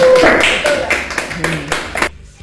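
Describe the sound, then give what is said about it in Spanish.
An audience claps for a doctor on a studio programme. The clapping comes as a series of sharp, loud hand claps that follow a brief voice at the start, then fades to near silence. “Un aplauso para la doctora.”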